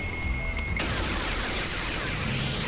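A sustained burst of rapid gunfire from a fighter jet's cannon during an aerial dogfight erupts after a thin steady tone and roars loud and continuous to the end, with no talking.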